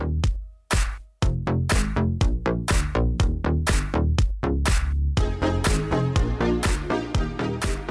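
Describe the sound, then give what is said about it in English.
Squishy Roland Juno-60 synthesizer bass drives an 80s Italo disco track, pulsing in a steady rhythm with bright synth layers above it, loud throughout apart from one brief dip near the start. “There it is. Squishy. I don't know how else to say it. It's a squishy bass.”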